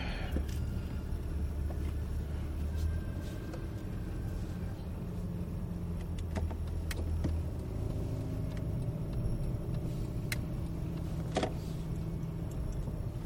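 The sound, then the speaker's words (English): A car engine drives out of a snowbank with a low, rumbling drone that shifts in pitch as it strains, under scattered clicks and knocks. “Ew, that didn't sound good. Drive out of the snowbank.”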